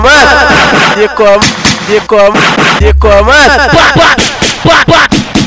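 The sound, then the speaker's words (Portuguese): Sharp gunshot blasts punctuate a loud, dense funk music mix, cutting through the steady beat and chanted vocals. “Dá dois tiros”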